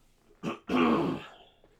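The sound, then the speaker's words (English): Throat clearing, loud and alone: a short rough burst, then a longer, harsher rasping push, followed by quiet. “As soon as I start the show, I just get my throat clogged up. And I just feel the need to clear my throat every 5 seconds.”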